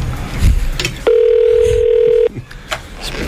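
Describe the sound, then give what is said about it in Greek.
A telephone ringback tone sounds while a call to a government ministry's switchboard waits to be answered: one steady, sustained mid-pitched tone lasting just over a second, with faint background noise before and after. “Δεν θα το σηκώσει κανείς το τηλέφωνο, ρε!”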